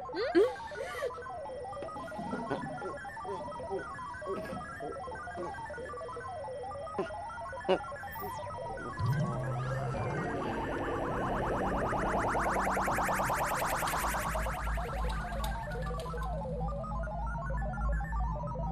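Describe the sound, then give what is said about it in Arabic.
Faint electronic chirping and warbling tones of an incoming phone call repeat throughout, with a steadier, fuller tonal layer joining halfway through. “انتبهوا، في اتصال من رئيس الاتحاد رح يبلش.”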